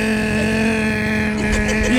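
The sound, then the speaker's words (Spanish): A person's voice imitates a pickup truck engine climbing a hill: a continuous buzzy, droning hum holds steady and loud throughout, rising slightly in pitch near the end. “¿Y cómo hacía el motor?”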